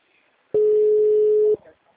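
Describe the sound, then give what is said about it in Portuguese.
A telephone ringback tone on a call that goes unanswered: one long ring at a single steady pitch lasting about a second, alone and clear. “Tô ligação ativa, tentando ligar. Mas ninguém atende?”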